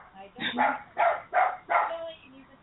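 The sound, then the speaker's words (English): Dog barking in four sharp, fairly loud bursts spaced about half a second apart, with the dog's hackles raised in fear, followed by a quieter tail. “So excuse me, but my dog,”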